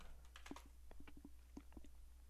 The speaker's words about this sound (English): Type it in, click validate code, and you'll see how this updates the prices.